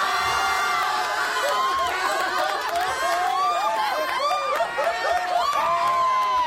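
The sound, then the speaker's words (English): Crowd cheering, with many overlapping whoops and excited shouts whose voices swoop up and down in pitch. The lively din stays at a fairly constant loudness throughout. “Well, the audience got a real kick out of that. They always love it when we trash Windows.”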